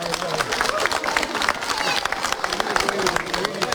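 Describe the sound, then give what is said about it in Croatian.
An audience gives big applause for a kindergarten children's folk dance performance in Pazin. Dense, continuous clapping holds at an even level throughout. “Nakon njih nastupili su polaznici dječjeg vrtića Montessori, Mali princ iz Pazina, izvedbom plesa Rašpa. Nagradite i njih jednim velikim pljeskom.”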